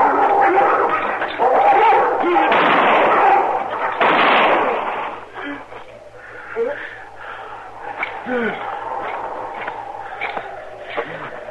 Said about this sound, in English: Stay back, Chester. I'm going over there with a six gun.